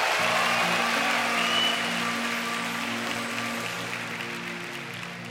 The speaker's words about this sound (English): Now put your hands together, everyone